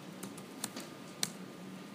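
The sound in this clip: Typing on a computer keyboard: a few faint, scattered key clicks with one sharper tap standing out over a low, steady background hiss.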